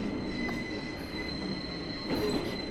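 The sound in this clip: A passenger train braking to a halt at an intermediate station, its wheels giving off high, thin, sustained squeals over a steady rumble, with a louder grinding surge near the end.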